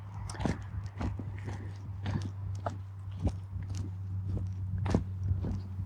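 Footsteps of a person setting off on a walk crunch irregularly on the ground: many short, faint steps and scuffs over a steady low hum, with no talk.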